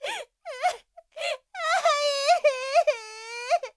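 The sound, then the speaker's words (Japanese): Anguished wailing and crying from a character grieving a death. Several high, wavering cries break into separate bursts, then run together in a longer sobbing moan that rises and falls in pitch. “さあ泣かないで”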